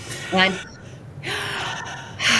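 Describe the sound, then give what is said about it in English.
Exaggerated deep inhale, drawn in from the diaphragm as a breathing demonstration: a brief voiced sound, then a long, breathy intake of air, with another breath starting at the very end. “So take that exaggerated deep inhale”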